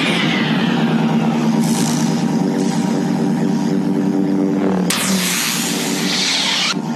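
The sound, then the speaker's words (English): A broken ceiling fan's oscillating motor makes a loud, continuous droning hum with a beating quality, used as a force field effect. The layered tones hold steady throughout, with a brief burst of broader noise partway through. “The sound you hear there is really just a broken ceiling fan.”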